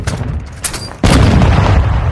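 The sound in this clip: A stun grenade goes off in a video game. After a second of low rumbling background comes a single sharp, heavy boom, followed by a sustained loud roar that lasts to the end.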